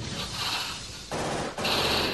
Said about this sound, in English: There's gunfire and explosions everywhere.